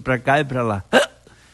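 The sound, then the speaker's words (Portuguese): A voice imitates the hiccups of a drunk old man: a few short voiced hics in quick succession, loud and throaty, ending in a sharper final burst before quiet. “tinha tomado uns goles e soluço pra cá e pra lá”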